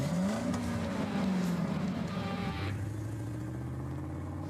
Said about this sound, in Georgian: ეს მანქანა 80-იანი წლების ნამდვილი ლეგენდა. Porsche 924.